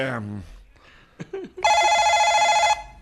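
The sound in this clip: A telephone rings with an incoming call, giving one sustained electronic ring about a second long with bright, buzzing harmonics. A brief voice and a few faint clicks come before it.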